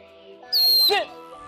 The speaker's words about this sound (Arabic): طير الحمام بيحفظ الصفرة. في عالم الكشاشين صوت التصفير بيساعد الحمام ليعرف بيته